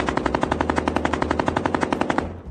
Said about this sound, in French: Les faux policiers ouvrent le feu,